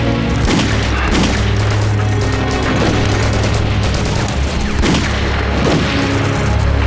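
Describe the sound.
Gunshots fired in a burst of shooting: a few sharp, punchy cracks stand out over a loud, continuous rumbling din that barely lets up.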